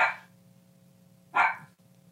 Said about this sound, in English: Is that me or you? That's my dog.